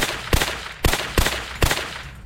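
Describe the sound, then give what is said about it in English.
Pistol gunfire as two magazines are emptied: four sharp, loud shots at uneven spacing, each a hard crack with a short decaying tail. “I unloaded both clips into her.”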